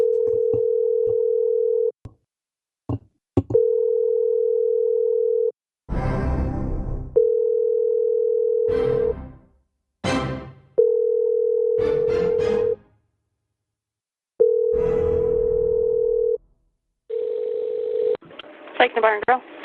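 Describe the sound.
A steady, mid-pitched telephone call tone plays in long stretches, broken by several short noisy bursts and clicks, ending with a quick run of warbling tones.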